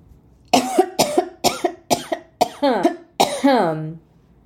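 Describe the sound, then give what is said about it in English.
A sudden coughing attack: a rapid run of about seven harsh, loud coughs, several ending in voiced, throaty tails, with the final one drawn out longer before it fades. “I must be saying something good here because I just had a coughing attack, which I haven't had in like forever.”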